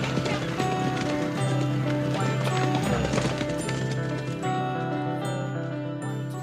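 Hooves of a champion racehorse filly galloping, a fast, dense, steady pounding that blends into a loud continuous wash of sound throughout.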